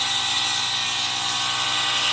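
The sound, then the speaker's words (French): A woodworker's band saw, used for rip cuts to make veneer, cuts wood with a continuous loud hissing whir that runs steadily without pauses. “mais c'est des machines qui sont quand même très utiles, la scie à ruban, pour mon métier. C'est indispensable.”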